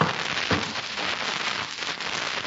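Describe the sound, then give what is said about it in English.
A log is put on a crackling fire, producing a dense, steady crackle and hiss that continues at an even level throughout, with no talking. “Wait, Pat, I'll put another log on the fire for you.”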